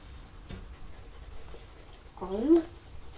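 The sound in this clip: A child draws with a pencil on paper, making soft, faint scratching strokes, with a brief voice partway through.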